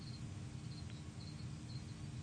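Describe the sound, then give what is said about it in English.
Many crickets chirping, kept as live food for large spiders: faint, high, repeated chirps over a steady low rumble, with no voices. “That's the sound of many crickets who are about to become lunch, I do believe.”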